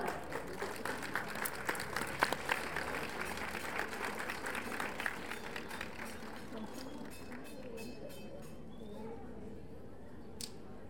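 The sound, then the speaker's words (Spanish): Quiet applause from a crowd at a political rally in Nezahualcóyotl: soft, dense clapping that thins out and fades over the last few seconds. “A continuación tenemos a la compañera Amelia Escalante, para la que pido un fuerte aplauso.”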